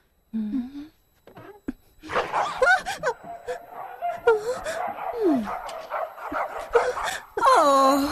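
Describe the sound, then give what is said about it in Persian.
Several dogs bark, yip and whimper in an excited, overlapping run of loud sharp barks and sliding whiny tones that builds into a near-continuous din and ends on a long high whine. “بس کنید دیگه سگای هار.”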